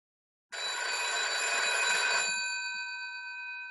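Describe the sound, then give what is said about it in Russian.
A telephone bell rings in one continuous, loud metallic burst of about two seconds after a moment of silence, its bright tone lingering and slowly fading afterward. “С утра пораньше меня разбудил телефонный звонок.”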